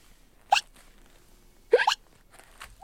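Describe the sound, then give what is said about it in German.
Hiccups from a young kangaroo at a zoo's kangaroo enclosure: a few sharp, bright hiccups, the later ones coming as a quick double burst, each short and abrupt against near silence. “Auch Schluck auf?”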